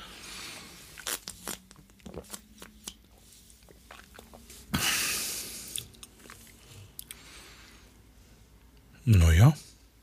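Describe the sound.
A screw cap twisted off a bottle of alcohol-free Radler gives a short crackling, hissing burst amid scattered quiet handling clicks.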